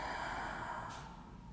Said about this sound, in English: Take a deep breath in all the way, filling your lungs down to your base. Deeply exhale.